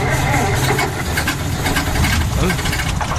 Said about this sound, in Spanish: Vaya, el motor se ha encasquillado.